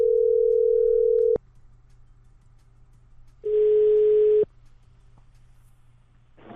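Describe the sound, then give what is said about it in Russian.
A telephone tone after a call disconnects: a steady, mid-pitched tone sounds in two long bursts separated by a pause, with the second burst rougher and noisier, over a low constant hum. “Алло, да, разъединилось что-то.”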